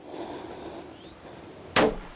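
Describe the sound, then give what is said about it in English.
A single sharp gunshot from a deer hunter's gun, fired at a buck, cracks loudly near the end and breaks a quiet outdoor hush. “You better put the phone down and put the gun up. Megan is tense, focused as she gets the deer in her sight.”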